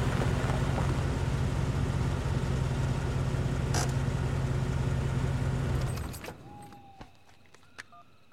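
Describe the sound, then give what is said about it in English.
Engine of a Jeep Cherokee drives up and stops, running loud and steady with a low hum, then cutting off abruptly near the end and leaving near-quiet with a few faint short tones. “Outside, a Jeep Cherokee drives up to the property and stops.”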